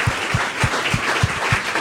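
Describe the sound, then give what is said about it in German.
An audience gives a big round of applause for someone after a talk. The clapping is dense and loud, holding steady across the whole stretch. “dann muss man glaub, so jemandem keinen Ratschlag geben, sondern nur einen ganz, ganz grossen Applaus, oder?”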